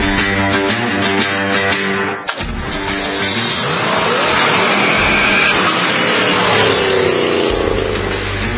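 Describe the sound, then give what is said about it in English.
The engine of a 1967 American-made Corvette Stingray roars loudly as the car drives hard, revving in a continuous growl with a brief dip partway through before pulling strongly again. “And it's a 1967 Corvette Stingray.”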